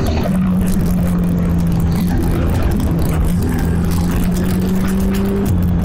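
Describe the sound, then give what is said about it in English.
A low-slung car, likened to a Formula 1 machine, is driven fast under pedal control. Its engine gives a loud, steady droning hum with a constant tonal whine, with no talk over it. “Look like I'm getting faster now. My feet are so big, they're hitting each other when I change from gas to brake.”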